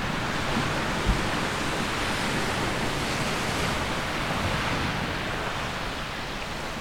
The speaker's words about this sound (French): Juste à côté de moi, il y a la plage. Et dans la mer, aujourd'hui, il y a des pêcheurs